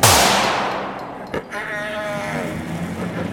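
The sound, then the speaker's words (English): A gunshot goes off in a single loud, sharp blast at the very start, its noisy tail fading slowly over several seconds, with a brief sharp knock about a second later. “Stay back or I'll shoot again.”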